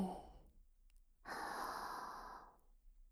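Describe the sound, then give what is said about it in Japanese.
Slow breathing in and out, a soft breath and then one long, airy exhale, quiet and alone with no talk. “吸って、吐いて、また吸って、”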